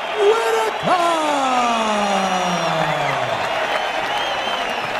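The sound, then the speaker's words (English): An adoring arena crowd roars for a first-round TKO fight win at the Rod Laver Arena, a steady, loud wash of cheering and applause with a drawn-out call sliding downward in pitch above it. “Have you heard a better sound in your life than this adoring crowd responding to your performance tonight?”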